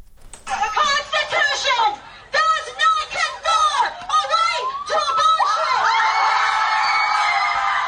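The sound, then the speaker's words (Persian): Protesters chant and shout outside the US Supreme Court after the overturning of the Roe v. Wade abortion ruling. Bursts of raised, rhythmic voices give way to a sustained, loud cheer over the last few seconds. “این صدای معترضانی است که از روز گذشته و پس از لغو قانون تاریخی سقط جنین موسوم به روبی وید در برابر دیوان عالی آمریکا تجمع کردند.”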